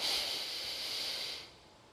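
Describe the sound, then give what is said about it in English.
A slow, deep breath: a soft, steady, airy hiss lasting about a second and a half before tapering off, quiet and alone. “So together, let's just take a deep breath.”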